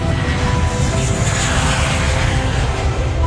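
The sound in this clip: An airplane taking off: a loud, continuous engine roar with faint whining tones layered through it, holding steady for the whole stretch with no voices.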